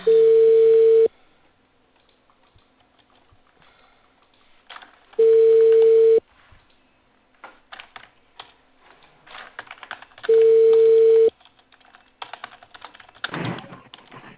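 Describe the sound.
An outgoing phone call from a cable company in Peru ringing on the line: three steady one-second tones evenly spaced about five seconds apart, with light keyboard typing clicks in the gaps between them.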